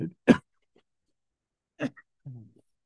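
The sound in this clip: Harsh throat clearing and coughs during a talk on reading the Bible: a few short, sharp bursts separated by silence, the second the loudest.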